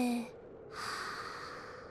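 Deep breathing during a breathing exercise: a soft, airy breath drawn and released, breathy and fairly faint, following a brief voiced tone.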